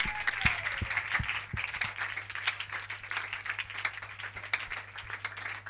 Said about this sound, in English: Jesus. Clap your hands up to Jesus.